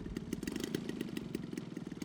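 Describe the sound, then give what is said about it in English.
Model airplane engines warm up before flight at a model aircraft flying competition, making a rapid, pulsing mechanical buzz that stays steady and fairly faint throughout. “It's where the pilots make last-minute checks and get the engines warmed up.”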